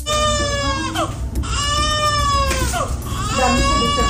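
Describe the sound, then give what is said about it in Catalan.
A rescued baby cries after 72 hours trapped with its mother under earthquake rubble: three loud, long, high-pitched wailing cries with wavering pitch and brief breaths between them. “Aquest és el so d'un petit miracle. El nadó rescatat era amb la seva mare.”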